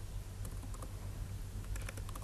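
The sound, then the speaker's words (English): Soft typing on a computer keyboard produces a scattered run of quiet key clicks over a low, steady hum, with no talking. “Not that good in typing today.”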